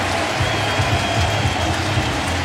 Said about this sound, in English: Abner Uribe will get a massive ovation from this crowd.